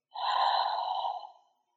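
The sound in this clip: A single slow, soft breath rushes out in a smooth, airy stream and fades away, heard alone during a guided breathing and visualization exercise.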